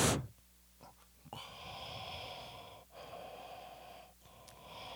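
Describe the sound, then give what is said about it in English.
Heavy, noisy breathing into a microphone: a loud snorting exhale at the start, then a few long, rough breaths and sniffs, with no talking. “Man, you breathe really heavy into the shit.”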